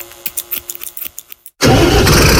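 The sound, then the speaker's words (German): A third-generation Fendt Vario tractor engine starting: a quick run of starter cranking pulses, a brief gap, then the engine catches into a loud, steady, full-bodied roar that holds to the end. “Worauf kommt es bei einem Traktor an? Auf Kraft, Zuverlässigkeit, Flexibilität und einen effizienten Einsatz. Da gibt es nur eine Antwort. Der Fendt-Vario der dritten Generation.”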